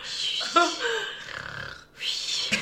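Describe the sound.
A person's voice imitates exaggerated snoring breaths of someone asleep, with rasping, snorting inhales and exhales in an uneven rhythm over a few seconds.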